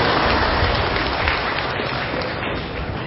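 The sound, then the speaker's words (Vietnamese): Audience applause at a Vietnamese teaching talk: dense, steady clapping that fills the whole clip at an even, fairly loud level, with no voices. “Giỏi, bây giờ tôi vỗ tay mình cho các vị.”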